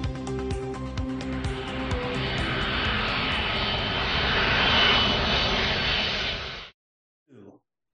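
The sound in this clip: Airplane taking off, heard as a loud, broad engine roar that swells steadily to a peak and then cuts off abruptly, followed by a brief faint sound.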